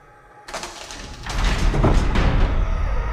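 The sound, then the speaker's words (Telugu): A door is opened in an audio drama, the entrance to a dark, dusty old mansion on a stormy night. A broad, rough scraping rumble starts abruptly and then swells, staying loud to the end. “ఇక భూమారెడ్డి తలుపు తీయగానే ఆదికేశవ్ లోపల అడుగుపెట్టాడు.”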